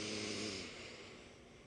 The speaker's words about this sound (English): Deep breath in through the nose.